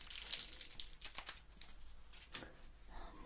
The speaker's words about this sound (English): okay, take the foil.